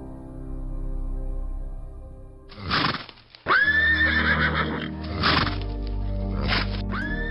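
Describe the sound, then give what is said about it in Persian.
A white horse neighs in one loud, shrill whinny that wavers and trails away, rising out of a steady low background hum. “این اسب زیبا و سفید اینجا چه می کند؟”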